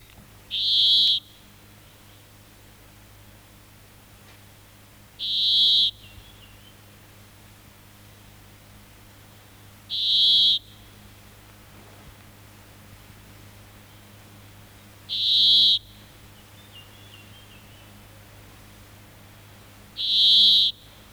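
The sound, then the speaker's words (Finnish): A brambling sings five drawn-out, buzzy, nasal notes. Each is short and high, spaced evenly about five seconds apart, and stands alone over a faint steady hiss. “Järri Peippo.”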